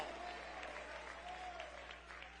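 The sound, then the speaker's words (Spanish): A church audience claps in praise, soft and steady throughout, with a faint voice and a low electrical hum underneath. “Dele ese aplauso de gloria al Cristo resucitado.”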